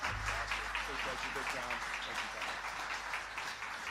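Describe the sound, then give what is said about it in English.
A church audience applauding a guest pastor: a continuous, even wash of clapping throughout, with voices mixed in underneath. “Give him a big hand, church. Come on, let's stand and honor him in the house.”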